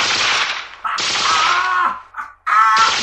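Bursts of rapid gunfire from a gun firing hot lead. There are three long, loud, crackling volleys separated by brief gaps.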